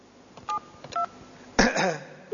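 Touch-tone beeps of a telephone number being dialed, a few short evenly pitched tones spaced apart, with a brief louder burst of sound between them.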